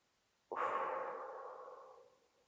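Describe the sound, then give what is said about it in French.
A long breath blown out during a sophrology relaxation session: a soft, breathy whoosh that starts abruptly after a quiet moment, then fades gradually over about a second and a half, with no talking. “Une deuxième fois, on inspire, on rassemble et on souffle, on libère.”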